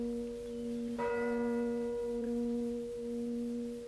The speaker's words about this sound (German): Haben Sie die Glockenschläge gezählt?